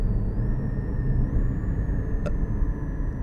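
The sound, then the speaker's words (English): A car engine drones after a downshift while cruising at just under 50 mph, with a steady low rumble under a thin whine that steps up slightly in pitch partway through. “3,000 revs, there's a sort of a turbine sound. Over 4,000 revs, it starts to come to life”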